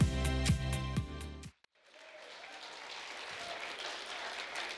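Audience applause at a church service welcoming the campus pastor team, a dense clapping wash that follows a short stretch of music and a brief near-silent gap, then holds steady to the end.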